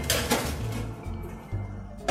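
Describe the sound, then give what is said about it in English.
Metal clatter and clunks as a cookie tray goes into an oven, with a few sharp knocks over a low steady hum and a final bump at the end. “I'm going to transfer them into the oven and bake them off for 10 to 12 minutes, not that long.”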